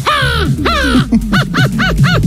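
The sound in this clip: A 12-year-old boy imitates a crow's call with his voice: two long, nasal caws that fall in pitch, then a quick run of several shorter, arched caws, loud and alone.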